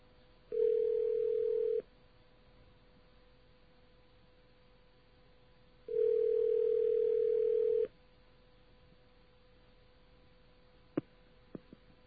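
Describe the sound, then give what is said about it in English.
Telephone line tones sound while a number is dialed collect: two long, steady buzzing tones separated by a silent pause, followed by a few faint clicks on the line. “And let's call this number collect and see what happens.”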